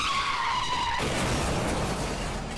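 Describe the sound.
Car tires skid in a crash: a high, harsh squeal drops slightly in pitch, then breaks into continuous loud, rough noise that holds to the end.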